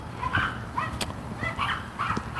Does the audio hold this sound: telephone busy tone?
no